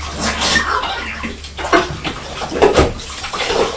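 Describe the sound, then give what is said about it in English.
Running water splashes as a beaker is rinsed clean, a continuous hiss of flowing water with a few louder splashes and clinks as the container moves under the stream. “Mummy's just washing this beaker.”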